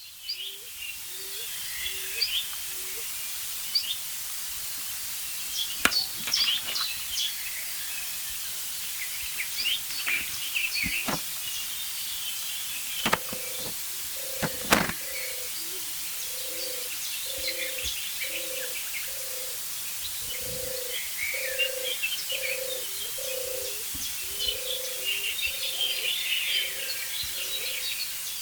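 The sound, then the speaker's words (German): Stock dove calling with soft, low, hollow coos repeated in a steady series, faint beneath scattered chirps from other birds. “Hohltaube. Sie klingt wirklich wie so ein bisschen aus der Höhle.”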